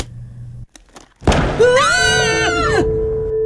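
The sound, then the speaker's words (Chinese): A single pistol shot, a sharp brief burst after a small click, followed by a sustained wavering ringing tone. “这次一样，又是在轮到第三位的时候，手枪再度被激发”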